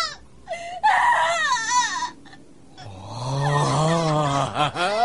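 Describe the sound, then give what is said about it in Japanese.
A child crying in an audio drama, acted by a voice performer: loud, sobbing wails that waver up and down in pitch, broken by short pauses and gasps. “子供の泣き声ってのは、絶望に駆られた女子供の声に勝るものはない。”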